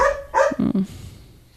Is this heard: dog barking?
yes